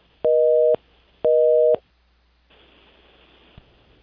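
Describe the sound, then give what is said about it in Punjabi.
A telephone busy tone sounds after a phone line disconnects: two identical steady electronic beeps separated by a short gap, then faint line hiss with a small click. “ਮੇਰੇ ਖਿਆਲ ਤੋਂ ਸਾਡੀ ਜਿਹੜੀ line ਹੈ ਉਹ disconnect ਹੋ ਚੁੱਕੀ ਹੈ”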